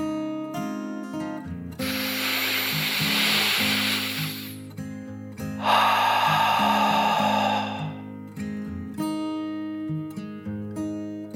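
Two long, slow deep breaths, one in and one out, rush softly over gentle, calm background music. Each breath lasts about two to three seconds with a breathy hiss, and there is no talk.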